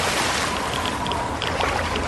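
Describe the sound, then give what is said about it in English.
Swishing, splashing water as a character swims in a video game, a continuous churning wash with no voices. “wow! My goodness. I have to do a little swimming here. Fortunately, there's Radex for that.”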